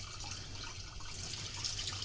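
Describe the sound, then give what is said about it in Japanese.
Running tap water splashes as Chinese yam (nagaimo) is washed to scrub off soil, a steady, even hiss of flowing water that holds for the whole moment with no voices. “土はね、ちゃんと落としたいのでしっかり洗ってくださいね。”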